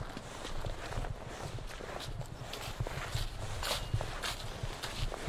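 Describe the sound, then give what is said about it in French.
Footsteps walk across a park lawn at an outdoor theatre venue. Many soft steps brush through grass in a steady, irregular series and stay fairly faint above a constant hiss. “Là, on marche dans la pelouse du parc”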